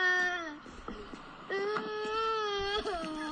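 Children crying as they leave a museum: high, tremulous wailing sobs drawn out into sustained moaning cries, broken by short gasps and whimpers, fairly loud throughout.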